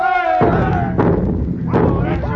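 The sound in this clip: A ship's guns fire on a fort, producing a few heavy, booming thuds that overlap with shouting voices.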